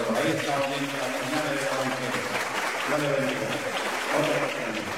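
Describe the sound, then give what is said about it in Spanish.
Applause from a church audience at a healing service, a continuous dense clatter of many hands clapping at steady loudness throughout, with voices and shouts mixed underneath. “Un aplauso para Cristo.”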